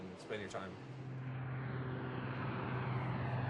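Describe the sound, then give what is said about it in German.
Transport aircraft engines drone low and steady at a remote Arctic air base in Greenland, Thule, building slightly in loudness over a few seconds with a constant low hum underneath. “Versorgt wird die Basis im grönländischen Nirgendwo von ein paar Schiffen, aber vor allem aus der Luft. Mehrmals in der Woche landen Transportflugzeuge.”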